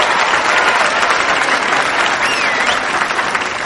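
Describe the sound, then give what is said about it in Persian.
Steady audience applause for a music band at a restaurant evening event. Dense, even clapping fills the whole stretch without a break and with no talk over it. “ممنونم از بچه های گروه موسیقی هر چقدر باهاشون حال کردید دست بزنیم به افتخارشون”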